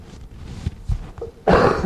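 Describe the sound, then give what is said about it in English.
A single cough from a man speaking: a sudden, loud, broad burst near the end, after a stretch of low, muffled background sounds. “sorry, didn't want to cough into that”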